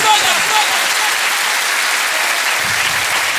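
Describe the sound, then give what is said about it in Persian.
Audience applause: loud, dense clapping that forms a continuous wash of sound from start to finish. “حالا باید قشنگ دست بزنید جانانه غیرتی باید دست”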